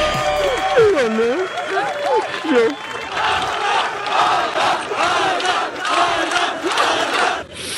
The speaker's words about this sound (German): ist dann ins Ziel gekommen, und zwar in Los Angeles. Und da haben ihn einige Fans erwartet. Hör mal.